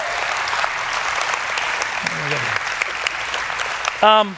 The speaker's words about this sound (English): I'll give these two a round of applause.